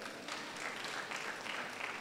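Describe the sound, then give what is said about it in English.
Audience applause from an audience during a sermon: faint, steady clapping that keeps an even level for the whole stretch with no clear pauses. “Clap for Jesus.”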